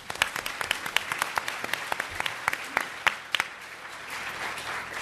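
Audience applause welcoming a panel at the student-organized LSE SU China Development Forum 2014, with dense clapping and many sharp individual claps that soften into a steadier, quieter patter near the end.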